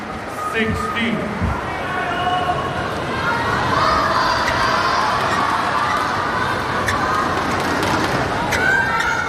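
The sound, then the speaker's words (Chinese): Badminton players shout to cheer themselves on during a match, their cries rising out of a steady, dense crowd roar that stays loud throughout. “双方现在都在给自己加油啊，鼓劲儿。”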